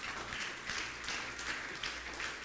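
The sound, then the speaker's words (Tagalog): Steady applause from a church audience during a Sunday sermon, faint and continuous, with no voices above it. “Palakpakan niya po natin yung Panginoon.”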